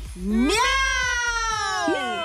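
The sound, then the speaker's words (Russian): Three people shout a cat's meow together as a New Year greeting, one long drawn-out 'meow' that sweeps upward at the start and then holds steady, loud and alone. “А мы будем мяу кричать.”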